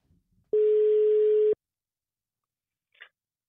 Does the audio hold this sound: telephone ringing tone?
yes